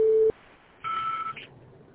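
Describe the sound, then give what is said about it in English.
Voicemail system tones signalling the start of recording: a low, steady electronic tone cuts off abruptly, then after a short gap a higher, buzzy beep holds for about half a second before fading into faint line hiss. “Message after the tone. For further options after recording, press the pound key.”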